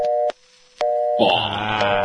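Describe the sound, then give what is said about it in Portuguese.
A mobile phone rings during a phone call: two steady mid-pitched tone bursts separated by a short gap, then a louder, richer tonal sound with many harmonics. “eu tô escutando o toque desse celular. Tem alguém ligando agora pra vocês aí.”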